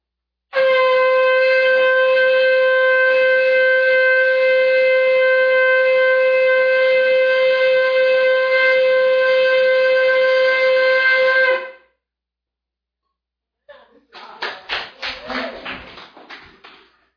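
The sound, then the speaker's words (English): A horn is blown at a religious gathering: one long, steady, loud blast holding the same pitch for about eleven seconds. After a pause, a few brief scattered sounds follow. “And would you please do that horn again?”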